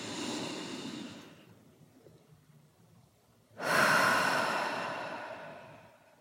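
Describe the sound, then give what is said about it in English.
A deep breath, with a soft airy rush that fades away, a short quiet pause, then a longer and louder whoosh of breath that slowly tapers off. No one talks. “I'm going to take a deep breath and I invite you to do it with me.”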